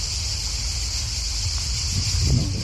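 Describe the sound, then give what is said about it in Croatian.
Light wind blows on a hot summer day as a steady low rumble, gusting slightly stronger near the end, under a constant high hiss. “Oh, malo pirka vjetru. To je dobar znak.”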